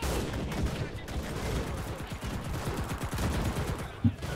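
Video game gunfire as a player shoots at bots: rapid, repeated shots in dense bursts, with one louder crack near the end.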